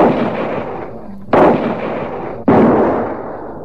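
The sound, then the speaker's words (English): Rifle shots while hunting bulls in the bush: two sharp, loud cracks, each followed by a long rolling boom that slowly fades, over an already loud echoing tail. “Reload and get the other two, quickly. Now you're shooting.”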